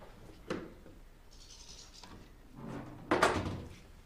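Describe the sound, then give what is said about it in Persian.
A door being shut: a soft thud early on, a faint rustle and shuffling in between, then a heavier knock as the door closes near the end, all fairly quiet. “درو که بستن”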